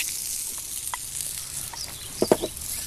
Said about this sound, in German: jetzt kannst du rühren